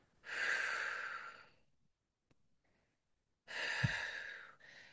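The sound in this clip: A person imitates a slow, calming exhale with two long, breathy outbreaths separated by a silent pause. The second breath ends in a brief snort-like catch.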